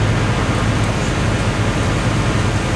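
Engine-room noise from a ship's two main engines, each 13 metres long and nearly 3 metres high: a loud, constant, dense roar with a strong low hum underneath, with no talk.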